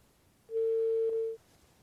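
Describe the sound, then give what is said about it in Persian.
A telephone tone sounds as a phone call drops: one steady, mid-pitched beep lasting under a second, clear and alone over faint background hiss. “خب فکر کنم تماس ما با بانو شاهی قطع شد.”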